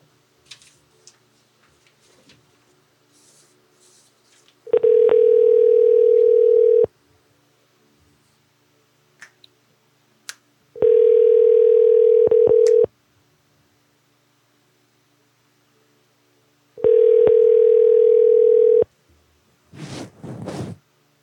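Telephone ringback tone sounds while a call is placed to a moving company: three identical steady tones, each about two seconds long, separated by gaps of roughly four seconds with faint clicks, followed by a short noisy burst at the end.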